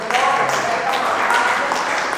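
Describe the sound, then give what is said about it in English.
An audience claps in praise at a church service, a dense, steady clatter of many hands lasting a couple of seconds. “Let's give a clap of praise to the Lord.”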